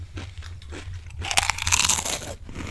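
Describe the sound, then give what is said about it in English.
Crunching of Pringles potato crisps being chewed close to a microphone, with dense, crackly bites that grow louder and busier partway through. “Look at us. Eating Pringles on our podcast again.”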